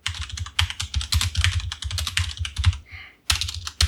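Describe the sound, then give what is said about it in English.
Fingers type on a computer keyboard in a quick, uneven run of many crisp clicks, with one short pause before the typing resumes. “Just typed in Alita Battle Angle.”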